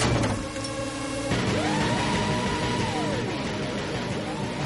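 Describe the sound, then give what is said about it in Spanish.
A garage door lowers onto the trunk of a car parked inside. A steady mechanical rumble carries a whining motor tone throughout, with no voices. “Llega, espera a que se abra por completo y pasa. La puerta se baja y da al maletero del coche.”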